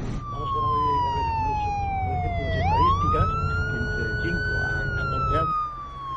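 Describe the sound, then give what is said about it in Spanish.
Wailing siren of a Guardia Civil police car over a low rumble. The tone slides slowly downward, then jumps and climbs back to a higher steady pitch before easing off near the end. “Un coche de la Guardia Civil le indica que pare.”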